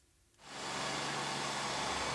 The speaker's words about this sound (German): Saugen, das kann der 5 Jahre alte Nito-Saugroboter von Alexander Schöcke gerade noch. Zumindest meistens.